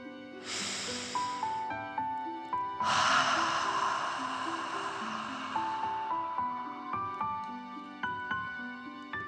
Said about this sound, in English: let's take three more deep dragon breaths. Deep breath in and out.